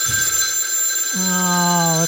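A telephone rings with an incoming call: a steady electronic tone, joined about halfway through by a lower, buzzing ring that holds to the end.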